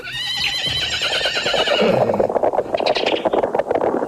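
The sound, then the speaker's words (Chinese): A horse neighs in a loud, high, wavering whinny, then a busy clatter of hooves and rumbling noise follows as a horse-drawn carriage arrives at speed. “一辆马车风驰电掣般的驶来，停在了翠云堂的大门前。”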